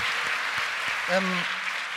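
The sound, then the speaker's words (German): Applause from an entrepreneurship summit audience in Berlin, with many hands clapping in a steady, even patter. A short voice rises briefly over the clapping partway through. “Großes Kompliment nochmal an den Gründer dieses Summits. Bitte, Applaus.”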